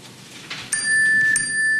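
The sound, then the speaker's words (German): A telephone rings with a bright, bell-like tone that starts partway through and holds steady with a couple of sharp strikes. It is loud and clear and stands alone over a faint background. “Was war das? Das war das Telefon.”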